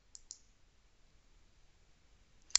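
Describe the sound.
Computer mouse clicks, a few crisp, faint taps: two quick ones close together at the start, then a sharper click at the end, with near silence between.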